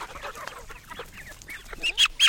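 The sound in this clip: Chickens cluck on a farm around feeding time, a busy run of short, squawky calls that build to two louder, sharper cries at the end.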